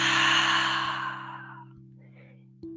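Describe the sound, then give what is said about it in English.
A long, slow exhale from a guided breathing exercise (in through the nose, out through the mouth), loud at first, then tapering away over about two seconds above a steady low humming drone. “two more time inhale through the nose exhale through the mouth”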